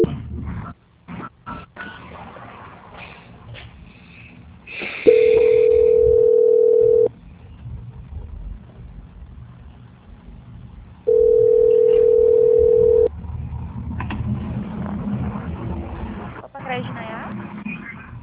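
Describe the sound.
Telephone line tone during a call transfer: two long, flat, steady tones of about two seconds each, with people talking before, between and after them.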